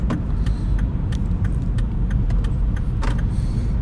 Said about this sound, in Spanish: Ay, estoy manejando y no sé para dónde voy, perdón.